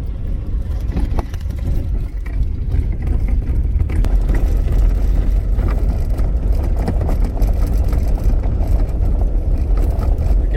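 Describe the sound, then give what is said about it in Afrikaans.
A car drives along a road in Zambia, its engine and tyres making a steady, loud low rumble that carries on without a break and without talk. “Ons het net verby die God First Bakery gery.”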